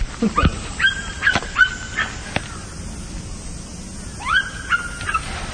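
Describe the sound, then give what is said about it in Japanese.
A dog barks in sharp, fairly loud bursts: a quick series of yaps, a short gap, then another run of barks, each with a bright, ringing tone over quiet background hiss. “ちょっと犬がうるさいですけど。”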